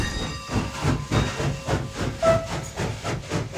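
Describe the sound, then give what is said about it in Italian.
A train departs from a station with a faint hissing, steam-like sound that pulses in many regular chuffs, keeping a steady rhythm throughout. “Il treno intanto è partito”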